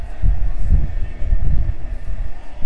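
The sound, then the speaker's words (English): Idling bus and city traffic played as a piped-in background effect near a gift shop: a continuous, loud low rumble with a steady, slightly pulsing texture throughout. “that bus sound like an idling bus and the city traffic and everything, so that's all piped in.”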